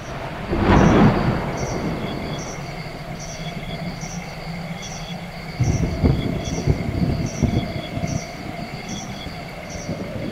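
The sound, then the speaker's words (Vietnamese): A thunderstorm with rain and strong wind, with dust blowing along a road. A loud roll of thunder comes near the start and a longer rumble mid-clip, both over a continuous hiss of rain and wind. “Mây mưa kéo đến, bầu trời lại khoác trên mình một bộ áo khoác đen nhám. Gió thổi ào ào, mỗi lúc một mạnh, bụi tung mù mịt cả con đường.”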